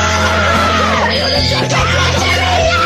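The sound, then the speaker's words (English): A person screams loudly during a video game session, a harsh, continuous and very loud yell that holds strongly through the whole clip. “Are you gonna make me scream loud as fuck?”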